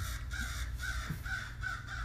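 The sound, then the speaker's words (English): A crow cawing: about five harsh, evenly spaced calls over a steady low background rumble. “I know y'all hear that crow.”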